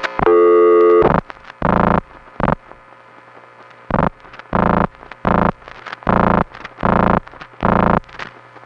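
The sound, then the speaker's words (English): Telephone intercept tones from crossbar tandem vacant-code recordings in Calgary and Regina. A long buzzy tone is followed by many loud, steady tone bursts, some short and some longer, separated by brief silences. “get the crossbar tandem vacant code recordings from Calgary and then Regina”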